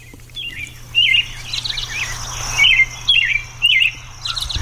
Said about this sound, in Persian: با این صدای پرندگان